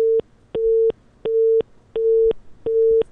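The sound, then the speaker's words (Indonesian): A telephone busy tone sounds after a dropped call when the signal is lost: five loud, evenly spaced beeps, all at one steady mid pitch, with short silent gaps between them and nothing else heard. “sayang sekali terputus telepon kami dengan Pak Edi Suparno yang saat ini mungkin berada di jalan, kehilangan sinyal.”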